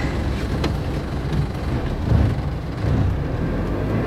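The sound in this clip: A car driving through Berlin in the early hours of the night, heard as a steady low rumble of engine and road noise that swells slightly a couple of times.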